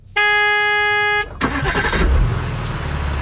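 A car horn blares in one long, steady tone for about a second, followed by rumbling engine noise as the car sets off from a fjord hotel in Brekke onto the European highway.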